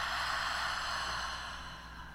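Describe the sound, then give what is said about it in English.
A slow exhale during a breathing exercise: one long, airy breath out with no voice, steady at first and then gently fading over about two seconds. “bring that breath effortlessly up into the heart. Hold the energy and then exhale out.”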